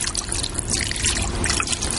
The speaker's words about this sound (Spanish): Va, cierra el grifo.